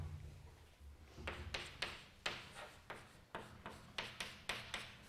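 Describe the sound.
Scratchy writing strokes as an equation is written out: after a quiet start, a steady series of short, sharp, gritty strokes follows in an even rhythm.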